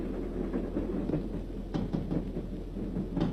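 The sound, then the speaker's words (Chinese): A military train speeds past at night, heard as a steady low rumble with scattered clacking knocks riding on top of the continuous drone. “一列军用火车在夜色中奔驰而过，林彪在车厢里正看书。”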